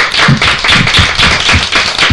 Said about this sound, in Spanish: Pues muy bien, un aplauso por lo bien que lo habéis hecho.